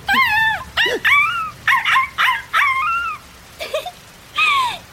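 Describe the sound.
A puppy whimpers and yips in a long series of high, whining cries with short gaps between them, many of them arching up and then down in pitch. The cries are loud and alone, with no talk.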